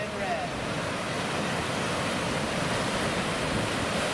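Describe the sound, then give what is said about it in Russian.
Sea waves roll in on a very windy shore, a continuous loud roar of surf mixed with strong, buffeting wind noise that stays dense and even throughout. “Так, вот идет волна хорошая сейчас.”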